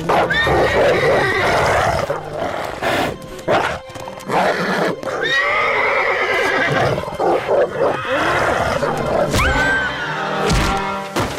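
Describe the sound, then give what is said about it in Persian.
A horse neighs and whinnies loudly as it rears up on its hind legs when a wolf attacks it and its rider in a forest. The cries are long and shrill, with wavering pitch, and repeat several times. “اسب سر دو پای پیشوری خود استاد شد”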